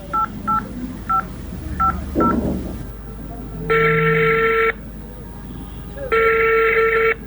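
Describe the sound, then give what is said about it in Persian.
A phone call being dialled: several short keypad beeps in an uneven rhythm, then two long, loud ringing tones separated by a pause, over a low background hum. “این حالا برش دستی زنگ میزنم”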